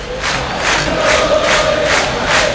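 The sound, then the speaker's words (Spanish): Boca Juniors fans at La Bombonera stadium roar and chant as a massive crowd. The loud, unbroken wall of voices pulses in a regular rhythm with several swells. “Escuchá cómo está la Bombonera. Escuchá cómo está el hincha de Boca hasta ahora.”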